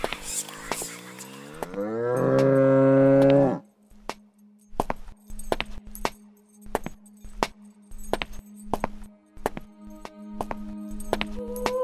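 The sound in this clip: A bull lows long and loud, a sound effect for an ancient Egyptian magic tale of a beheaded bull revived by spells. Scattered sharp clicks and knocks follow over a steady low hum.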